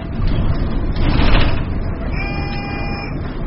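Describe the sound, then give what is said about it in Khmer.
A bus door creaks open for boarding passengers, heard as a sustained tonal squeal in the second half over a steady, loud rumble. “នៅពេលដែលសម្លេងងឺតងឺតក៏បន្តឡើងបង្ហាញថាទ្វាររថយន្តបានបើកហើយសម្រាប់ឲ្យអ្នកដំណើរឡើងជិះ”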